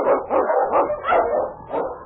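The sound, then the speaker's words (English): Barking from husky sled dogs, led by a strong Eskimo lead dog on a snowy trail: several sharp, loud barks in a quick, uneven series, one after another with no talking. “Wonder Dog King, swiftest and strongest of Eskimo lead dogs, blazes the trail through storm and snow for Sergeant Preston”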